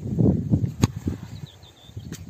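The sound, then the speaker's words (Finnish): A football shot by Romelu Lukaku slams the crossbar in a Belgium-Finland shootout, a single sharp crack over low rumbling noise, followed by a fainter, smaller impact shortly after. “Ja Romhelu Lukaku täräyttää ylärimaa. Ylärima on kauhea pommi, mutta Suomen maali säästyy.”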